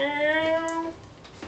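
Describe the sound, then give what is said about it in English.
A cat mewling insistently for attention: one drawn-out, tonal meow that holds steady, fairly loud, then breaks off, followed by quiet. “incessantly mewling Fagin. Seems to be vying for attention, but every time you go near him, and then slinks off.”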